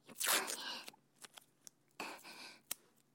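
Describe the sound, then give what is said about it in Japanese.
Tape torn and pressed down to fix something firmly so it stays put when wet: two quiet rasping bursts, with several sharp clicks and taps between and after them. “いっぱいテープでガチガチに固定します。”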